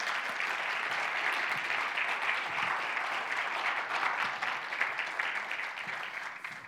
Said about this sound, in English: Let's give him a hand.